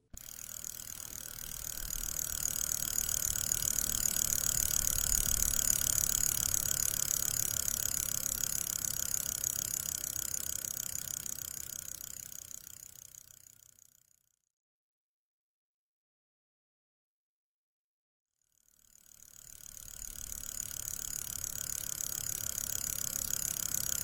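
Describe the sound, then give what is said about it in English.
A spinning wheel whirs as wool is spun: a steady mechanical hum with fine rapid clicking that fades out, stops for several seconds of silence, then starts up again. “There's the wheel. There's the wool. If you can spin, spin!”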